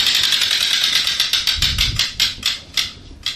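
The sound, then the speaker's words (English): A prize wheel spins during a game: rapid, bright ticking of the pointer against the pegs that gradually slows, the clicks spreading farther apart until the wheel nearly stops. “Spin the wheel. All right. Let's get that wheel going. Let's get it going, going, going.”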